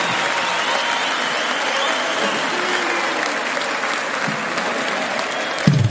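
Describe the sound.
Steady crowd applause, a dense, even wash of clapping that holds at a constant loud level from start to finish with no voices standing out.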